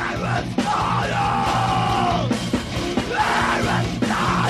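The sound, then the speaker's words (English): A man screams and yells through a window over added music, his loud, strained cries repeating and breaking off in bursts above a steady musical backing. “So we put music to it. The original recording, there's no music. It's just him screaming in the window.”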